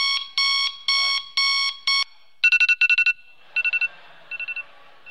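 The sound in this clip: Alarm clock ringing in sharp, piercing electronic beeps: first a few evenly spaced long bursts, then quick clusters of shorter pulses in a slightly different tone, growing fainter toward the end.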